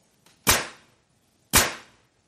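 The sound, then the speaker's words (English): Two sharp nail gun shots sound about a second apart. Each is a loud, crisp crack with a short fading tail, and a faint click comes just before the first. “What is a nail gun? A nail gun, yes, much bigger than a stapler.”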